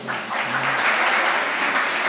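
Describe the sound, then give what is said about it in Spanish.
Audience applause, a short burst of dense clapping that swells quickly and stays steady, with a brief voice at the start. “A ver, aplaudo otra vez la gente que tiene menos de 18.”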